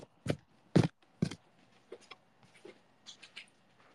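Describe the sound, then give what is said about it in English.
A Halloween greeting card rustles as it is handled. Three sharp papery crinkles come first, then several softer, scattered rustles, all fairly quiet with no talk. “You hear it? Yeah. It's a card.”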